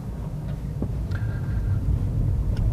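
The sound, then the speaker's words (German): Steady low rumble of a car driving into an underground parking garage, with faint scattered clicks and squeaks over the continuous road and engine drone. “jetzt fahre ich auch gerade in die Tiefgarage”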